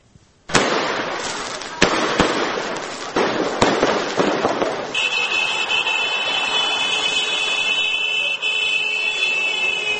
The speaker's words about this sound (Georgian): მეორე დღეა გორში ადგილობრივი სპორტსმენების წარმატებებს ფეიერვერკებით და მანქანების მსვლელობით აღნიშნავენ.